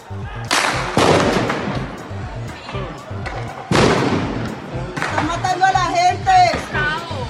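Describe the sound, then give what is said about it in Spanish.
Gunshots as police open fire on people in a street: a few sharp, loud bangs with echoing tails, separated by a few seconds, followed by agitated shouting voices. “¡Está disparando! ¡Está disparando! ¡La policía está matando a la gente!”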